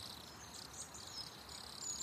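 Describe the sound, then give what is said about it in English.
Crickets chirping in a steady, high-pitched trill that runs unbroken for the whole stretch, faint and even, with no other sounds or voices. “And from Rome, we still get crickets.”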